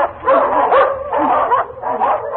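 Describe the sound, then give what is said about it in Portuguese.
A pack of hunting dogs barks and yelps as it is released for the hunt, overlapping barks and whining yips surging in three loud bursts. “foi logo procurando os rastros e, ao encontrá-los, soltou a matilha. Vamos, larga! Larga!”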